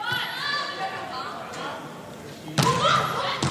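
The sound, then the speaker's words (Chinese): Volleyball serve by Zhao Yingshan winning a direct point: two sharp ball impacts, the first loud and the second a little later, cutting through a steady background of crowd noise and voices. “好发球啊！ 赵颖山发球直接得分。”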